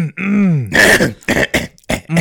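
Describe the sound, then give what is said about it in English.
A person clears their throat with a drawn-out, wavering voiced rumble, then several rough, broken bursts of harsh, noisy sound in quick succession, loud and alone. “clear my throat.”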